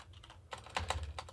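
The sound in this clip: Soft typing on a computer keyboard as a quick note is written, a short run of faint, irregular key clicks that grows slightly busier toward the end.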